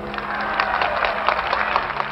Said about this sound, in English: Applause again at the mentions of Jacob Javits, the liberal Republican senator from New York, and Barry Goldwater, the conservative Republican from Arizona.